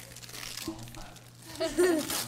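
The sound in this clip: Crinkling and tearing of gift wrapping paper as a present is opened: a few soft rustling, ripping bursts, with voices talking and exclaiming over them toward the end.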